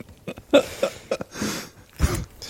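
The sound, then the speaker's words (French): A person coughs in a few sharp, bursty fits, loud and close, without any talk over them. “Pardon. Quand j'ai des bêtises, ça me fait tousser.”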